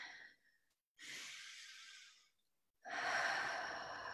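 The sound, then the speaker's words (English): Deep breaths in and out during a guided relaxation exercise, soft airy rushes of breath separated by short silent pauses, with no talking over them. “Just close your eyes for a second and take a nice deep breath in.”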